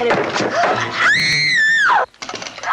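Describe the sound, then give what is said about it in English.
A woman in a 1950s TV adventure series gives a high, piercing scream. It follows brief talk, lasts about a second, rises sharply, holds, and then drops away. “Had a very distinctive scream. I'd recognize it anywhere.”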